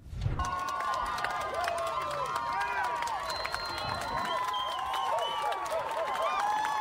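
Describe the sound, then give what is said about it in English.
A parade crowd on Church Street in downtown Burlington cheers and claps, with a busy hubbub of voices running steadily underneath. “I want to show you a little bit just to set it up, see what Church Street downtown Burlington looks like during this parade.”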